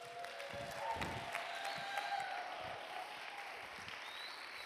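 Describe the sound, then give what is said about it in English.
Audience applause at a church service welcomes a pastor, with a sustained, even wash of clapping from a crowd that holds fairly steady at a moderate level. “Can you give it up for Pastor Nate this morning?”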